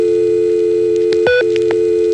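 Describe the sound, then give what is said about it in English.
A telephone test line tone sounds after dialing 660, the ringback code in the downstate area. A steady electronic tone holds, broken near the middle by a single short, higher beep before it resumes. “And that little tone there is a touchtone test. It would have beeped twice had we dialed 1 through 0 on a touchtone dial, but since we didn't, it waited 15 seconds and beeped once.”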